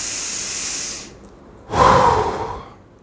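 A person breathes deeply: a long hissing inhale, a brief pause, then a louder, forceful exhale with a slight voiced edge that fades out.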